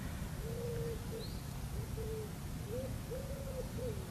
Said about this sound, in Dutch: De duif.